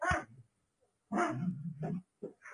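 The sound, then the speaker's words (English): A dog biting at itself, making a few short bursts of yelping and a longer, rough growling whine, separated by brief silences. “sorry, the dog was biting itself.”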